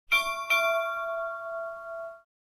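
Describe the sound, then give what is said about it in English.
Ship's bell clock chime: two quick, bright bell strikes about half a second apart, then a clear ringing tone that holds steady and fades out after about two seconds. “Okay, my last two traditional clocks are, ship's bell,”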